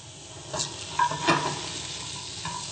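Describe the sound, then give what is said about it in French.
Mushrooms searing in a hot pan sizzle steadily while being stirred, with a few scraping strokes rising above the constant frying hiss. “Je mélange un petit peu les champignons, je veux les saisir.”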